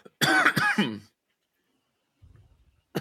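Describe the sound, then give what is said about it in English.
A person coughing and clearing the throat at a microphone, one loud rasping burst about a second long with two sharp onsets, then silence broken by a faint low rumble. “sorry, I'm trying not to cough into the mic.”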